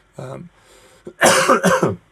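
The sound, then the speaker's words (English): Coughing from one person: a quieter rasp, then a few loud, harsh coughs in quick succession, heard alone without other sound. “coughing again, sorry”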